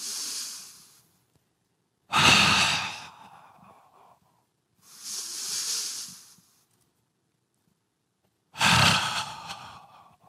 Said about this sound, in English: I stand, I bounce in place. I swing my arms. I take 10 deep breaths like this.